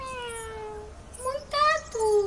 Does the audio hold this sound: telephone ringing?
no